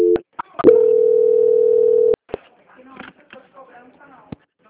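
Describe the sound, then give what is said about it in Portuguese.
A telephone call transfer tone: a steady, loud, unbroken tone lasting about a second and a half, with brief clicks just before it. It cuts off sharply, and quiet voices talk afterward. “Só um momento, senhor. Transferência.”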